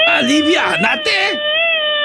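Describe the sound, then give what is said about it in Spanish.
A boy lets out a loud, high shout that wavers in pitch at first, then holds a long, steady, piercing tone for its final half-second. “Ándale pues, muchacho, échale el grito bien machín a Edu, allá en Nueva York.”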